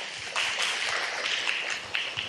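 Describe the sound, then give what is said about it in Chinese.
An audience claps to welcome a speaker at a ceremony, a steady, dense patter of many hands that runs evenly throughout without a break. “掌声欢迎”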